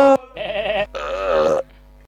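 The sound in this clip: Loud burping: a short burst followed by two longer, drawn-out belches with a croaking, voiced tone, heard alone without talk.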